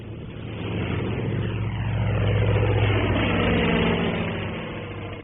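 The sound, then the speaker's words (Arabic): An airplane passing overhead gives a low, steady droning engine roar that swells gradually toward the middle and eases off slightly at the end, with no voices over it. “إنها طائرة. لماذا تمر في هذا الاتجاه؟”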